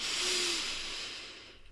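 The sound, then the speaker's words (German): A deep inhalation during a yoga session: an airy, breathy hiss that swells quickly, holds, then gradually thins and fades over less than two seconds, heard alone. “Ein letztes Mal einatmen.”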